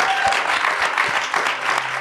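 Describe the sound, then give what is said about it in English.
An audience gives a big round of applause at a live science event, a dense, even wash of many hands clapping that stays loud and steady throughout, with a few low thuds mixed in. “Could you please give them and yourselves an enormous round of applause?”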